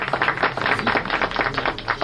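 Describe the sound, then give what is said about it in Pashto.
Dense, even hand clapping from an audience applauding in honour of a speaker, sustained across the whole moment without a break. “دغه دی دام تاسې او دام د قدر وړ غبار صاحب، په افتخاري لاسونه وپړکوئ.”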